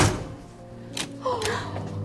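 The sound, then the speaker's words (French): A door is shut in a house, giving a faint, dull thump followed shortly by a second soft knock against a quiet background with a low hum. “Asseyez-vous et laissez-moi fermer la porte.”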